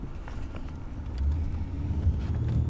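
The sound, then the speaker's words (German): A car drives through small villages in Lusatia, giving a faint, steady low rumble of engine and road noise that swells slightly midway, with no voices. “Mit dem Auto geht es eine knappe halbe Stunde durch kleine Orte.”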